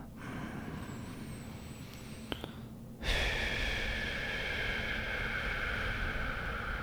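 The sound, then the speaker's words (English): A slow deep breath drawn in through the nose and let out through the mouth, faint and airy: a quieter drawn-in stretch gives way to a louder, steady breathy rush that holds to the end. “just pause with me for a second and just breathe. I like to do through my nose, out my mouth.”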